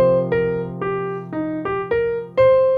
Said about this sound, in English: I like to start on the root and go descending, ascending. So using the same pattern, it sounds like this.